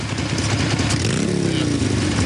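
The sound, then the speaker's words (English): A huge red motorbike pulling up and parking at a biker bar gives a loud, steady, rumbling engine note that rises in pitch midway, with some mechanical clatter. “Now, someone on a huge motorbike pulls up and parks at a biker hangout beneath a wooden sign reading Silver Creek Bar.”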